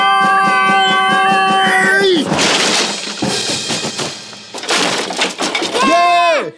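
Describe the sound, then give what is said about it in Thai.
A fence is smashed and broken down by escaping pigs, with a burst of loud cracking, splintering crashes and thuds through the middle. High vocal cries with falling pitch come before and after the breaking. “อีกทีนะ ทุกคนพังรั้วไปเต็มพลังอ้า”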